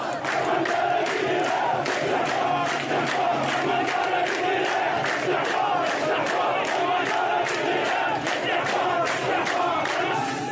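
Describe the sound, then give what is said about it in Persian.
Crowd chanting at a night-time protest in Khuzestan: many voices shout together in a loud, dense, rhythmic roar that continues without a break for the whole stretch. “در ادامه صدای فایل‌های منتشر شده از اعتراضات شب گذشته خوزستان را با هم”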